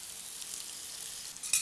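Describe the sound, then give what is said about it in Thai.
Bitter melon stir-fries in hot oil with garlic, giving a steady, bright sizzling hiss throughout, with a brief louder crackle near the end. “ก็จะใส่ตัวมะระที่เราเตรียมไว้เรียบร้อยแล้วนะครับตัวนี้นะครับนะฮะนี่ฮะใส่ลงไปนะครับนะครับผัดนะครับให้มะระสุกก่อนนะครับ”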